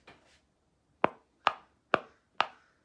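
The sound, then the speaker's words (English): Four sharp, clear clicks as the lid of an unsealed container is pressed down. They come at an even pace about half a second apart and are fairly loud with nothing else around them. “I'm gonna press down on the lid. And if the camera can come close, you'll hear a sound.”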